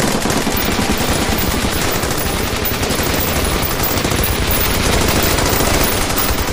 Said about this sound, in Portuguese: as asas delas viram, viram pra frente começam a atirar, mas não te acerta